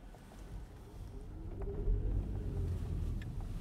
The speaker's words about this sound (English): Somebody is coming up my street. You're going to have to drive by me.